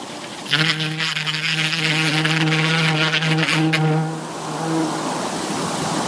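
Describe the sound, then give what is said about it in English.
A bee buzzes loudly during buzz pollination, a steady, rich droning hum with a strong overtone stack that holds for about four seconds, then breaks into a fainter, rougher buzz. “So you all thought that this was merely the sound of a bee buzzing, right? Well, you would be wrong. It's much more than that. It's the sound of buzz pollination.”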